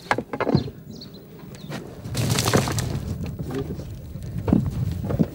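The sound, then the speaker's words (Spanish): Dull, irregular thudding of a mason repeatedly tamping slightly moistened earth inside rammed-earth formwork, a few heavier blows standing out over a continuous rough, rumbling bed of scraping and knocking. “El albañil golpea una y otra vez dentro del encofrado para apelmazar fuertemente la masa.”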